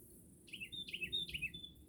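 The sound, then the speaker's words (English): A bird calling outdoors by a dock on the water: a few short, high chirping phrases in quick succession, fairly faint over a low, steady background rumble, with no talking. “And there's always a bird”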